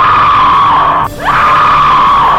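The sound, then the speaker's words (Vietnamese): Women scream in terror, a loud, sustained, high shriek that breaks off briefly in the middle and then resumes. “Họ cùng kêu thét lên.”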